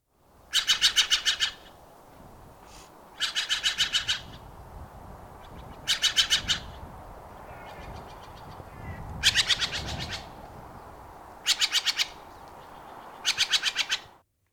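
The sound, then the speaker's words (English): Harsh, raspy calls of a Steller's jay, a year-round resident in Juneau, come in about six loud bursts of rapid repeated notes, with fainter calls in between. “What about the Stellar J? Now, you have given us some sound from that.”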